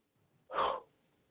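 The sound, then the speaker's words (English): A deep breath drawn in and let out during a group exercise of filling the space with light and love, heard as one short, breathy rush of air, loud against an otherwise near-silent background. “let's take a deep breath and release it.”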